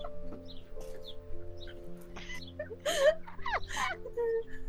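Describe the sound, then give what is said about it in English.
Birds clucking in repeated short calls and chirps over a steady droning hum, with the clucks bunching most densely near the middle and the sound holding at a moderate level throughout. “Shut up! Birds are stupid!”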